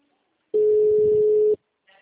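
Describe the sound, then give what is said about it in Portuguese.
A telephone call ringing with no answer: one steady, mid-pitched ringback tone of about a second, set between stretches of silence. “tô ligando de novo. Tá chamando e ninguém tá atendendo.”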